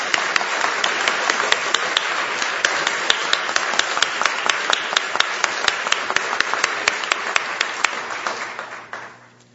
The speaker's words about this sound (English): Our friend, give it up, please, for Dr. David Bean.